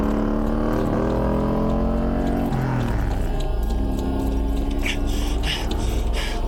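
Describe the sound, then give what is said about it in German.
Loud, steady roar of a car engine as the car drives straight toward people, its engine note shifting in pitch throughout. “Der fährt auf uns zu! Der will uns wohl überfahren!”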